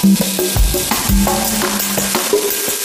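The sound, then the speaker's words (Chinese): Stir-fried eel strips are stirred into rice in a dish likened to claypot rice. A utensil scrapes and clacks against the dish in repeated strokes over a soft, steady sizzle. “炒软兜也往上面一放， 嗯， 哎，再一就跟煲仔饭似的，再往上一搅拌， 所以那个香气就出来了”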